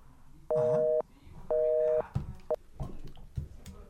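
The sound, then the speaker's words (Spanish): A phone line's busy tone sounds after a dropped call: two even, loud beeps, each about half a second long with a matching pause between them. A shorter blip and a few brief knocks and noises follow. “Se nos cortó, la, llamada.”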